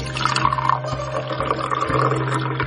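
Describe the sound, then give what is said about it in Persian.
Tea being poured into a slim-waisted tea glass produces a continuous bubbling, trickling stream of liquid. It holds steady throughout over a low constant hum. “مرد به آرومی یکی از استکانهای کمر باریک رو بر میداره و توش چای میریزه”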